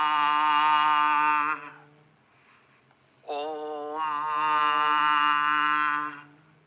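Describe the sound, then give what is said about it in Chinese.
Two long hummed 'om' chants are sung on the exhale during a guided chakra meditation. The resonant, steady voiced tones are separated by a short quiet breath. “我们吸气的时候吐气的时候发出嗡的声音连续三声嗡”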